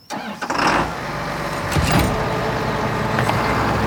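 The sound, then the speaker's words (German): A vehicle engine starts and then runs steadily at potato harvest as the vehicle moves a few meters. The sound builds from quiet to a constant loud rumble with a few clunks mixed in. “fahr mal ein paar Meter.”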